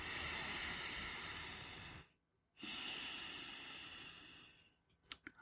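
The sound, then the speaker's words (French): Slow, deep breathing from a person lying warm under a blanket with eyes closed: two long airy breaths separated by a short silent pause, followed by a few faint clicks. “Je ferme les yeux, je respire.”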